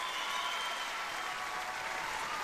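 An audience applauds in a soft, steady, continuous wash of clapping that stays even and fairly faint throughout, with no voices.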